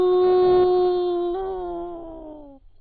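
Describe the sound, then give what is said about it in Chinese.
A person imitates a wolf howling in a forest, voicing one long, steady, drawn-out howl that sinks slightly lower in pitch before it stops abruptly. No other sound is heard. “一声狼叫呀”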